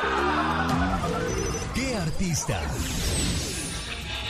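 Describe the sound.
A telephone rings on a call-in line, its bell tones sitting amid dense music, with people talking over it throughout.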